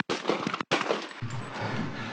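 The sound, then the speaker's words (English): Two sharp, loud gunshots from a police sergeant's handgun during a struggle with a man, each a harsh burst that starts suddenly, followed by a low steady hum. “Shots fired. Subject is down.”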